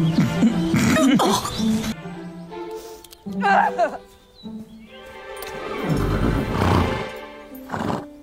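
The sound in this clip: A sick horse with a serious stomach ailment neighs and snorts in a few loud, rough bursts separated by quieter gaps, ending in a long breathy, groaning stretch.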